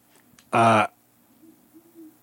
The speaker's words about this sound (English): there's an owl. Yeah, it's loud. It's right outside the yurt.